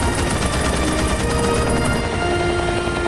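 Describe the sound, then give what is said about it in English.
Sustained machine-gun cover fire in an audio drama scene beside a rescue helicopter: loud, rapid, continuous bursts that keep up an unbroken hammering rhythm. “Beside them, a machine gunner continues cover fire.”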